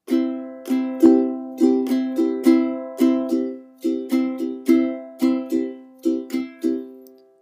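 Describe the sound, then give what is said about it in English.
Ukulele strumming a C chord in a down, down, up, up, down, up pattern, the bright strums repeating steadily in a looping rhythm, each one ringing and decaying, with no voices. “Josh uses, he uses the good old-fashioned down, down, up, up, down, up. Now, if you've been playing ukulele a while, you'll know that one. Using a C chord, that will sound like this.”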